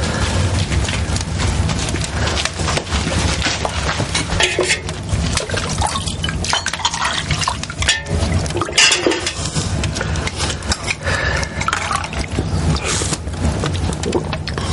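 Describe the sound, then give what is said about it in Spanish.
Garlic soup being served into a bowl, heard as continuous wet sloshing, trickling and pouring with scattered drips, steady and fairly loud throughout. “le sirve un cuenco de sopas de ajo.”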